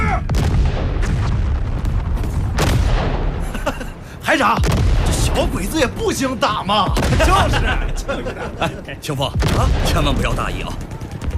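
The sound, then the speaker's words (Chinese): Rifle volley fire and machine guns in a battle against Japanese troops: dense, continuous bursts of loud shots and heavy booms overlap throughout, with voices shouting amid the gunfire. “一排全体听我命令，五发齐射，打。”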